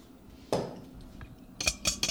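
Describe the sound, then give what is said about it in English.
Metal whisk clinking against a bowl while dry yeast is stirred to dissolve it: one sharp clatter, a brief pause, then three quick bright clinks in a row, with no talk. “I'm impatiently whisking the yeast to get it dissolve a little faster.”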